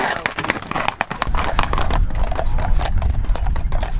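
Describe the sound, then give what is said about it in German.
Four Haflinger horses trotting, their hooves clip-clopping in a steady run of many sharp, evenly spaced beats, with a low rumble underneath through the second half. “Jetzt traben auch die vier Haflinger.”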